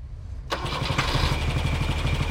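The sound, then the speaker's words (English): A Rolls-Royce engine that is out of oil starts up: a sudden catch, then a rough, loud, uneven running rattle that carries on steadily. “What a terrible noise, Mrs. Royal! Isn't it annoying, Roy? It's out of oil. A Rolls-Royce. Out of oil.”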